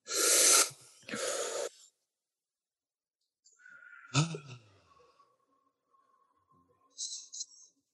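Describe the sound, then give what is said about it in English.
Several people take a deep breath together: a loud inhale and exhale as two broad rushes of air, then quieter breathy sounds with a brief voice. “let's all take a breath together. Hey, why not? Let's do a breath.”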